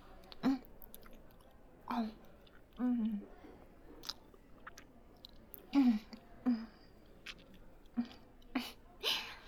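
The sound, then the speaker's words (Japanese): Chewing while eating a meal: an irregular series of many soft, short bites and mouth noises with brief gaps between them. Faint vocal sounds are mixed in among the chews. “じゃあ食べながら話そっか。いただきます。”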